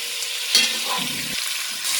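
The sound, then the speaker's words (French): Pieces of smoked meat (boucané) fry in a hot pot with a steady, loud sizzle, broken by a sharp pop and crackles of spitting fat. “Je mets mes morceaux de boucané dans la marmite. Attention. Ah ouais, ça pète fort là-dedans.”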